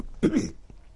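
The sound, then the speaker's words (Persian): A single short cough from a sick person with a bad chest: one brief, rough burst followed by quiet. “من مریضم هستم، ببخشید سرفه میکنم، اینا حالم خوش نیست، سینم خراب.”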